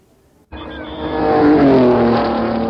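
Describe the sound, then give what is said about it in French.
Race car engines at the 24 Hours of Le Mans, cutting in suddenly from near silence and swelling into a loud, sustained high-pitched roar. “Ici, les 24 heures du Mans. La ronde infernale continue, comme vous pouvez l'entendre d'ailleurs.”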